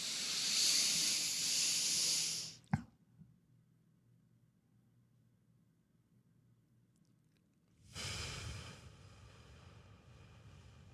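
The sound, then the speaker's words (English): Slow, controlled breathing done as five seconds in, a five-second hold and five seconds out: a long, loud, hissing breath ends with a small click, then near-silence for about five seconds before another breathy rush begins. “I do 5-second breathe in, hold the breath for 5 seconds, 5-second breathe out. And I do that when I'm trying to fall asleep.”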